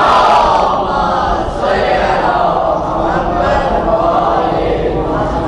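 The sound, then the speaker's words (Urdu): A crowd at a religious gathering chants its answer to the Nara-e-Haidari call, many voices shouting together in loud, sustained surges that swell and ebb over several seconds. “علی کا نام بلند کرے ثواب زیادہ ملے گا. نعرہ حیدری.”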